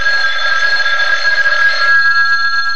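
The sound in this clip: A telephone rings loud and steady as one continuous electronic trill, sustained throughout with no voices.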